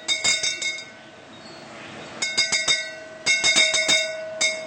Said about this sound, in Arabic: كزينة بيتية طبعا للأطفال، في عندك الأجراس، جرس مثل هذا الجرس،